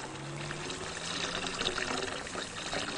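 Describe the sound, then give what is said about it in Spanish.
Water from a fountain splashes as hands are washed in it, a steady pouring trickle that runs on evenly throughout. “Más tarde, Hans se lava las manos en una fuente mientras Lucía le mira atenta.”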